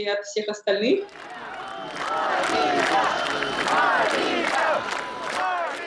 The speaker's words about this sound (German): Zehntausende rufen Maria.